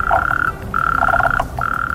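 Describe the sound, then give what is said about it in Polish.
Frogs croak on a spring night in Łódź, forming a loud, dense rattling chorus. It comes in three long trilling bursts split by short pauses, steady and even, with no voices. “Dziś odwiedzimy również żaby w Łodzi, które nie pozwalają na długi sen mieszkańcom.”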